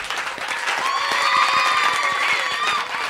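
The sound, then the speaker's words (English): An applause track for a song built up from one person clapping in different spots and layered together. It gives many sharp, distinct claps in a loose, fairly quick patter that holds a steady moderate level for about three seconds. “All right, I'm just isolating all the parts that made up that applause bit,”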